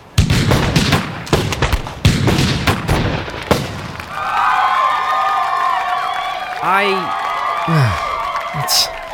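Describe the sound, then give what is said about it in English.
A 21-gun salute fired into the sky by wedding guests: a dense run of sharp, loud gunshot cracks over the first few seconds, followed by sustained higher tonal sounds. “Everyone pointed their guns out to the sky, waiting for the groomsmen's cue. All right now, 21 gun salute for the Mr. and Mrs.”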